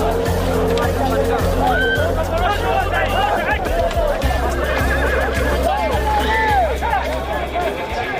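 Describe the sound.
Horses whinny repeatedly at a gathering for ulak, the goat-dragging horseback game, where hardy Lakai breed horses compete. Several wavering neighs rise above constant crowd babble and talk.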